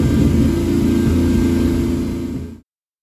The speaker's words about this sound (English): and the V12 was singing.